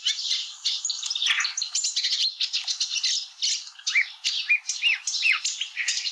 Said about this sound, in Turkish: Şimdi Çalıkamışçını dinleyelim.